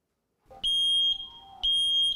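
A smoke detector beeping as its roughly ten-year battery runs out: two loud, piercing high-pitched beeps about a second apart, with a faint low tone between them.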